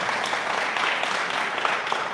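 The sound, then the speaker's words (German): A church audience applauds during a service, producing a continuous, fairly soft patter of many hands clapping at an even level with no clear breaks. “Lass uns Jesus nochmal einen Applaus geben.”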